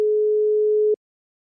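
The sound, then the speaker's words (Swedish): A steady single-pitch telephone tone hums evenly for about a second, then cuts off abruptly to silence. “Jag slår in numret.”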